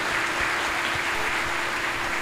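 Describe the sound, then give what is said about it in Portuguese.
A church audience applauds the Blessed Sacrament, a dense, steady wash of many hands clapping together, loud and continuous throughout with no voices. “aplaudamos a Jesus sacramentado, aplaudamos a Jesus sacramentado, nosso Rei e Senhor.”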